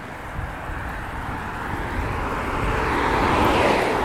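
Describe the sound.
Car traffic passes on Pilgrimstein street, heard from a bike lane running against the flow of cars, a broad steady roar that swells gradually louder toward the end.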